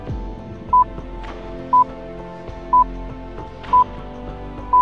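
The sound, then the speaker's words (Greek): Greenwich Observatory time signal pips, broadcast by the BBC from one of the observatory's electric clocks: five short, high, identical beeps, one each second, over a steady background of sustained sound. “Είναι ο ήχος με τον οποίο το αστεροσκοπείο του Greenwich ορίζει το ακριβώς της ώρας. Το BBC συνδέεται με ένα από τα ηλεκτρικά ρολόγια του αστεροσκοπείου”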